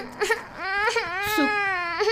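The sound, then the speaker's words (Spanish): A child cries in long, wavering wails broken by a few sharp sobbing catches. The voice is loud and tonal, with the pitch bending up and down throughout. “Y lloró de camino a casa.”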